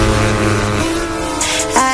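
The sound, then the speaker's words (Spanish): Car engine noise: a loud, held harmonic drone that shifts its pitch a couple of times, like an engine being revved, with a brief brighter burst near the end. “Arranquen los motores, ha llegado la hora de pisar el acelerador.”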